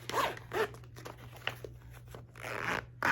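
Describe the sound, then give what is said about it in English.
A zipper on a binder-style pencil case is pulled open in several short, quick zip strokes followed by a longer, drawn-out pull, soft and close over a faint steady hum, with no voices. “I also have my pencil case.”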